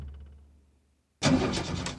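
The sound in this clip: A car engine starts on a frosty winter day: a faint low rumble, a short silence, then the engine catches abruptly into a loud, steady roar that holds to the end.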